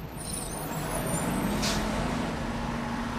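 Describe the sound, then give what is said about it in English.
A bus pulls up with air brakes: a steady engine rumble runs throughout, and a short burst of brake hiss cuts in about halfway before the engine drone settles. “A bus pulls up, with Slimer at the wheel.”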